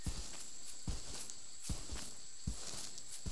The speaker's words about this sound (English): we must walk slowly, carefully, and quietly in the jungle.